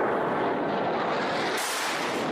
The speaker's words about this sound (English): Those are the sounds of the Saudi coalition and their airstrikes.